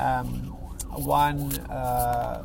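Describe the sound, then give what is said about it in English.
An ambulance siren wails past a moving car, with police vehicles also nearby. The steady tone swings up and down in repeated sweeps over a continuous rumble of road and engine noise. “I'm driving. Here's an ambulance coming past. So sorry about the noises and some police vehicles.”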